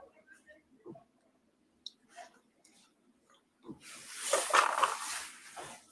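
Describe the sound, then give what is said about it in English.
A small sticker that will not come off is peeled from an object, giving a rasping, crackling peel noise that lasts about two seconds after a few faint, scattered clicks and rustles. “Actually, let's remove this little sticker. It's not coming off.”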